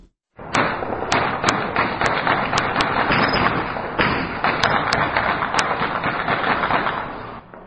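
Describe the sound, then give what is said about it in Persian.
Light and heavy weapons fire at night in the city of Sheberghan, Afghanistan, a dense, irregular run of many gunshots with sharper cracks standing out above the continuous rattle. “این صداهای فیر اسلحه سبک و سنگین بود که شب گذشته پس از امضای توافقنامه بین دو دکتر محمد اشرف غنی و عبدالله عبدالله در شهر شبرغان صورت گرفت.”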